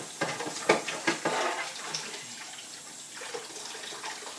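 Tap water runs and splashes as a steamer basket is rinsed, a faint, steady trickle broken by a few sharper splashes early on.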